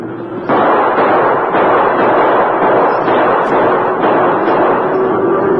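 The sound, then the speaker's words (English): Repeated gunshots ring out during a cattle stampede on a western trail. Several sharp shots punch through a loud, dense, continuous roar that fills the whole passage. “Keep shooting”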